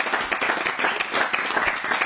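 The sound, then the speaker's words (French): Applause and clapping as a newcomer is welcomed to a table: dense, even clapping fills the whole stretch at a steady loudness without a clear break. “Ouais, vas-y, viens, on l'applaudit. Non, je connais pas. On peut l'applaudir.”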